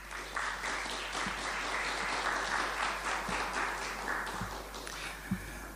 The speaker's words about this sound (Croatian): Molim vas aplauz.